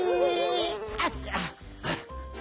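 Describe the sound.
A buzzing fly makes a wavering, high, whining drone at the start, followed by a few brief, bright sounds.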